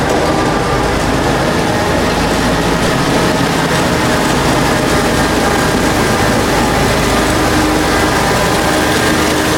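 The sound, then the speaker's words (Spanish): A Zamboni ice resurfacing machine starting up gives off a loud, steady engine drone, dense and continuous from start to finish with no break and no talk. “Y arranca la Zamboni”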